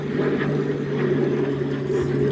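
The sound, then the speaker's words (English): Engine of an old Royal Navy aeroplane, a steady, fairly loud drone with a constant low hum and rough noise running unbroken throughout. “That looks like an old Royal Navy aeroplane.”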